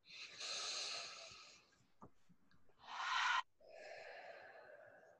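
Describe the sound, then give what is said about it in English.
Faint, slow deep breathing during a calming exercise: a long airy inhale, then a short, sharper breath, followed by a long, soft exhale, with no talk. “One more deep breath.”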